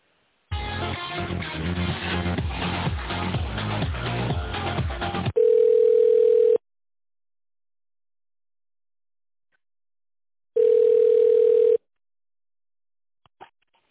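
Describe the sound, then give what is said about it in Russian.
During a telephone call transfer, hold music plays briefly and then stops. Two long, steady telephone tones follow, separated by several seconds of silence. “А, давайте я вас переключу на отдел.”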